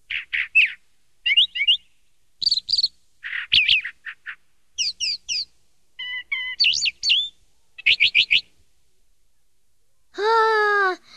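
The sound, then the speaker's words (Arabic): A small bird, a sparrow, chirping: many short bouts of high, quick chirps separated by silent gaps, ending with a longer wavering call. “وماذا قال لك العصفور؟”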